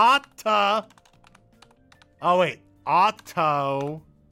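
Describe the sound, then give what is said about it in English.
Faint clicking of typing on a computer keyboard, soft keystrokes heard in the gaps between stretches of a person talking. “Wait, how do you spell Ottoman? I'm trying to type in Ottoman.”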